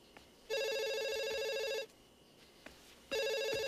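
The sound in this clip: A telephone rings with a bright electronic trill: two ring bursts, each over a second long, separated by a silent gap, the second cut off at the end, over a faint background.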